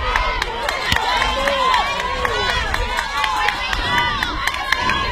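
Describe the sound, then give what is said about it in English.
Softball fans cheering during a full-count at-bat, a mix of shouting, cheering voices and sharp, scattered claps that stay moderately loud and continuous. “Fans cheering on here.”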